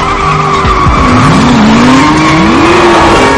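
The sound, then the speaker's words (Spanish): Loud tire squeal and roaring engine from a car racing at full speed in a chase, dodging patrol cars and driving the wrong way; the squeal holds continuously with wavering, rising pitch. “El coche está con la cinta a toda velocidad. Esquiva a varios coches patrulla, entra en una carretera y circula en sentido contrario.”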